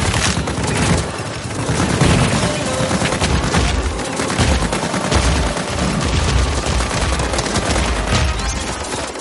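Rapid gunfire from looters' weapons in a science-fiction action film scene: a dense, unbroken barrage of shots at a steady, loud level for about nine seconds.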